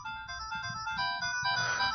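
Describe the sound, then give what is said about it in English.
Electronic tones from the Excitebike video game, playing at a raised pitch: steady, buzzy stepped notes that shift between pitches over a low rumbling noise. “See, it just sounds high. That on yours it sounds high. Mine sounds pretty perfect. In fact, mine says Excite Bike.”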